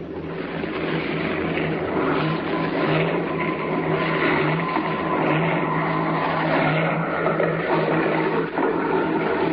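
A small airplane landing and rolling toward a stop, used as a radio drama effect, with a continuous loud engine drone and a low steady hum throughout and no voices.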